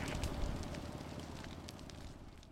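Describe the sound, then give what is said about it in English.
Crackling of a prescribed burn fire lit around pines in a savannah: a dense, continuous crackle and rushing roar that stays fairly loud throughout and eases off slightly toward the end, with no talk. “I am out here igniting on the burn. We have been lighting around some of the pines here in the savannah.”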